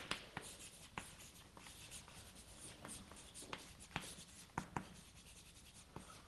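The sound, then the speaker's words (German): Chalk or marker strokes on a board during a lecture, heard as many quiet, short scratchy taps and scrapes in an irregular rhythm, with no voices. “Ich schreibe es mal hier hin.”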